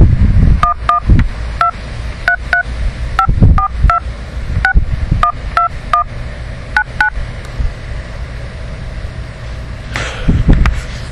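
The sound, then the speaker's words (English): Telephone keypad tones dial a number into a calling service: a rapid, irregular series of many short, bright two-tone beeps over low rumbling background noise. A few dull thumps come near the end. “Please enter the telephone number you wish to dial now.”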